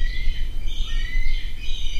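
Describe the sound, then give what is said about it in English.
Thin, high chirping calls of bald eagles in the large raptor enclosure of the Iowa Tribe of Oklahoma's Gray Snow Eagle House repeat in short phrases over a steady low rumble. “Social bald eagles nosedive across the large enclosure at the Gray Snow Eagle House, while others perch”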